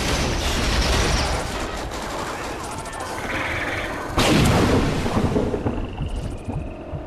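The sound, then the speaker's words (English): Gunfire from the Call of Duty video game while playing as the Predator character: a dense, continuous roar of rapid shots and crashing blasts throughout, with a heavier burst near the middle. “the sounds you're hearing are playing as Predator in Call of Duty.”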